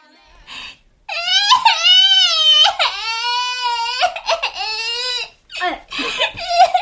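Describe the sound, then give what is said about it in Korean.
A young child wails loudly in long, drawn-out sobbing cries broken by short gasping breaths, with a brief pause before the crying carries on. “갑자기 왜 울어?”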